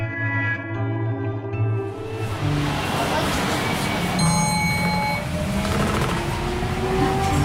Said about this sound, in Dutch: Ik zit in de bus op weg naar het Amsterdamse Bos.